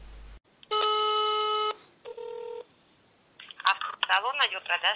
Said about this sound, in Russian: вот по этому номеру я сейчас буду звонить